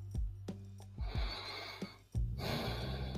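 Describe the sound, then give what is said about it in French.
A soft, deep breath: a slow airy inhale and a long exhale, quiet and breathy, with no talking. “Je veux que tu respires. Respire bien.”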